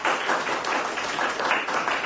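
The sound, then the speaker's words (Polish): Audience applause at a school's 70th anniversary celebration: a dense, steady patter of many hands clapping, holding at an even level throughout without a break. “zaklaskajmy, jak już chcecie klaskać.”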